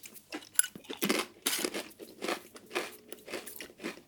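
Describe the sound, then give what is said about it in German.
Crunching of salty crispbread being bitten and chewed: many dry, brittle cracks and crackles in an irregular rhythm, moderately loud with short pauses between bites, and no talking. “Ist ganz gut, ne? Salziges Knäckebrot.”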